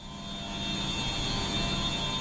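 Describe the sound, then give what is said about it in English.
High-pitched hum from pumps and boilers in a building basement: a steady, thin whine over a low mechanical drone, unchanging and heard on its own. “A high-pitched hum comes from pumps and boilers in the basement of the Moakley Federal Courthouse in Boston's Innovation District.”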